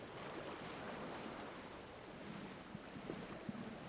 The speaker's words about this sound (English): I turn my head slightly and find another sound. It's always the water. Always the water.